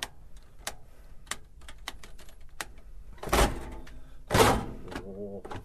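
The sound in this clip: Buttons pressed on a push-button combination safe that takes five of its fifty buttons: a run of sharp, light clicks at uneven intervals, then two louder, fuller clunks near the end as it opens.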